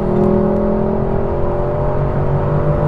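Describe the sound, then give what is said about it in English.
Engine and road noise inside a refined, quiet car with a front-mounted naturally aspirated V8, heard as a steady low drone with a faint tonal hum and no talk. “Which is at least a fairly refined, civilised, quietish car. Quietish, yes. So hopefully there won't be too much background noise.”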